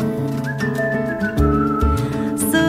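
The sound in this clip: A whistled tune within a Polish pop song, with sustained melodic notes that glide between pitches over a steady musical backing.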